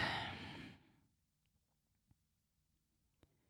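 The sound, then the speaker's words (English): A single long, deep breath with a breathy, rushing sigh-like quality, loud at first and fading away within about a second, then near silence with a couple of faint, brief clicks. “Take another deep breath with me.”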